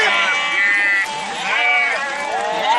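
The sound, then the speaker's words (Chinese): Sheep bleat on a summer pasture in the Altay region, many loud, overlapping wavering calls following one after another with no pause. “每年七月前后，阿勒泰地区的夏牧场都将迎来数百万头牛羊，这是一幅壮观的游牧画卷。”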